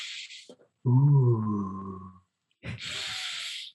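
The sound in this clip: A voice imitates breathing exercises: a breathy exhale, then a long voiced humming tone, then another long, forceful breath. The sounds are heard alone, without talk.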